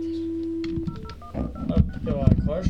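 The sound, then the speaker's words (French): Telephone number being dialed to set up a call line during a radio show, heard as a steady tone followed by a few short, clear electronic beeps, with voices talking over them. “Vas-y, je te laisse composer le numéro. On met en place la ligne.”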